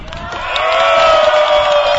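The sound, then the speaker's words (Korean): An audience at an event honouring bereaved families breaks into applause and cheering. The crowd noise swells quickly and then holds steady as dense clapping under sustained cheering voices. “여러분, 이 긴 세월 동안 함께 해주신 우리 유가족들에게 다시 한번 뜨거운 박수와 함성을 부탁드리겠습니다.”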